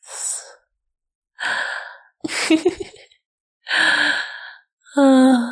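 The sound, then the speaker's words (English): Five deep, breathy inhales and sighs from a person recovering after being choked, each a separate airy gasp with short pauses between, the last ones carrying a slight voiced tone. “Just breathe. Nice deep breath.”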